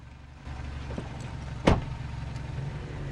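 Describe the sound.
A car door shuts with one solid, sharp thud as passengers get into a car, set against a low, steady rumble and a faint earlier click.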